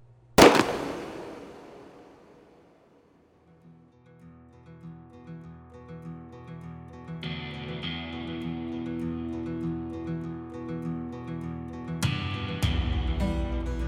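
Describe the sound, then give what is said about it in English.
A gunshot opens with one sharp, loud blast and a long decaying tail. A swelling music bed then fades in and builds steadily. “I shoot that one in the head.”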